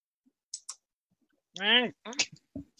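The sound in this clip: Two quick computer mouse clicks during an online tabletop roleplaying game session, sharp and high, followed by a short murmured vocal sound and a few more brief sounds.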